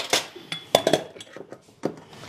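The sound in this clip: Pots and utensils clink while rice is washed in the kitchen to rinse off its starch: several irregular metallic taps and rattles, a few louder, with quieter clatter between them and no talk.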